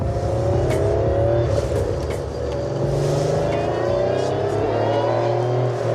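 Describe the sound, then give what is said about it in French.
A Porsche engine, apparently a burgundy car priced like a new 911, runs with a loud, harsh, rasping drone. Its buzzy tone holds nearly steady throughout, with no clear rise or fall. “Le son que vous entendez là, c'est un peu comme si on faisait tourner un moteur de Porsche avec une scie circulaire en même temps, le tout dans une boîte de conserve.”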